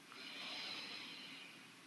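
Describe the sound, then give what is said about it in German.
A deep inhale through the nose during a guided breathing exercise: a quiet, steady, airy hiss lasting about a second and a half, heard alone. “ein letztes Mal tief über die Nase einatmen”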